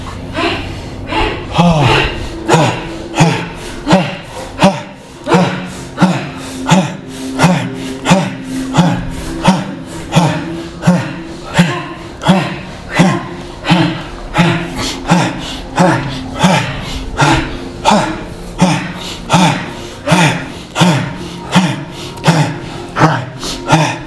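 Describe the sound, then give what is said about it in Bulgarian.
Heavy, forceful breathing during a guided breathing exercise. Many rapid, rhythmic breaths repeat in a steady fast pulse for the whole stretch, loud and evenly spaced. “Още, дишай. 5 минути още. Дишай мощно. Дишай.”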